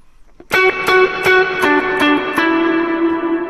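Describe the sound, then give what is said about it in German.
Electric guitar played through an effects unit with light drive and modulation: several strummed chords ring out in quick succession, then blend into a shimmering, sustained tone with a faint chorus-like wash. “Dann haben wir einen kleinen, leichten Drive drin.”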